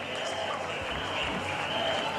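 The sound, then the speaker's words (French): Kenyan fans making noise in a rugby sevens stadium in Lille as the French side takes the field, a steady, moderately loud wash of applause and crowd voices without clear peaks. “Et le public kényan qui donne déjà de la voix”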